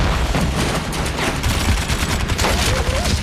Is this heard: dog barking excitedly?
no